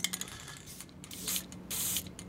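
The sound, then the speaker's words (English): Hissing aerosol color spray for shoes at a shoeshine stand, several short sharp bursts followed by a longer, steadier spray near the end, with light tapping and handling noise between them. “This is a color spray.”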